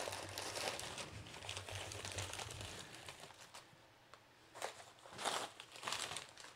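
A plastic bag crinkles and rustles as it is handled while a box is unpacked, giving a few soft, irregular bursts of crackling against a faint low hum.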